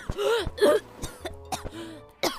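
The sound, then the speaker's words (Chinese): A child's fit of coughing after choking: a run of rough, voiced coughs and throat-clearing bursts in quick succession, loud at first and tapering to shorter, fainter hacks. “被陆延辰这一句话呛得一阵乱咳嗽”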